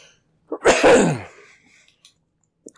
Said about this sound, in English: coughing motivates you?